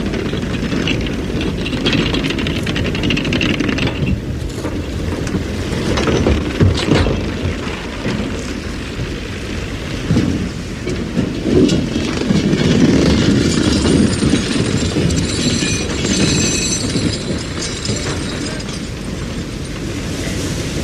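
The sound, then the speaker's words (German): Small trawl otter boards clattering up onto a fishing trawler during a voyage to East Greenland. A loud, continuous rumbling and grinding carries irregular knocks and bangs throughout. “Die kleinen Scherbretter poltern hoch.”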